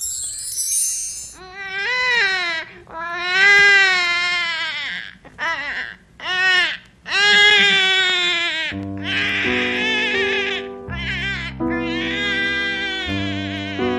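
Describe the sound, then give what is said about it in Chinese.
Loud infant crying from a baby in a household in 1937: repeated high, strained wails in bursts with short gaps, continuing as a steady music bed enters partway through. “一阵响亮的婴儿啼哭划破天际。”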